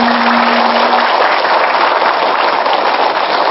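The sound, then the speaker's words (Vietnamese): An audience claps during a Buddhist teaching session, a thick, continuous wash of applause that stays loud and even from start to finish. “Đừng giả bộ vỗ tay để thoát bài kia nha.”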